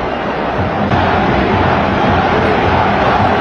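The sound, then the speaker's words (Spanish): Loud roar of a football stadium crowd reacting. The sound is a dense, unbroken wall of massed voices that stays strong throughout and swells slightly after about a second. “Y ahí está la impresionante reacción del público.”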